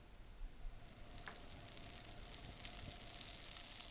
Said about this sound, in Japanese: まず最初にフライパンにバターを入れて玉ねぎを入れていきます。